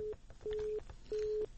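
A telephone tone on a cut-off line: a faint, steady pure beep pulsing on and off in even, repeated bursts.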